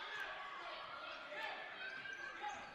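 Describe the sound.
A basketball is dribbled during a women's game, with a few faint bounces barely rising above a steady wash of crowd noise.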